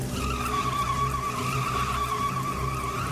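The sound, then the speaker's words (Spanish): Car tires skidding as the driver loses control of the wheel after brake trouble, a sustained squealing whine over a rumbling engine, fairly loud and unbroken for a few seconds, with no voices. “Fue tal su impresión que perdió el control del volante.”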